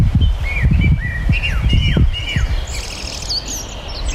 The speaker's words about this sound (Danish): Ja, det er en sangdrossel. Det er virkelig sjovt. Den siger faktisk video.